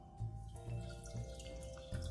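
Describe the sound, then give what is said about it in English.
Faint trickling and dripping as warm liquid, just taken off the heat, is poured into a large mixing bowl in a kitchen, with several small splashy drips over a soft, steady background. “And so we're going to pour it into a bowl, a large mixing bowl.”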